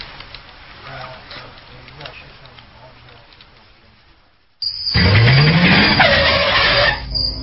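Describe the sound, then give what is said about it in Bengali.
A car pulls up and stops. A quiet stretch of low engine hum gives way to a sudden loud burst of tire noise and a rising squeal that continues until near the end. “কি ব্যাপার, গাড়ি এখানে থামলেছে? এটা কোন জায়গা?”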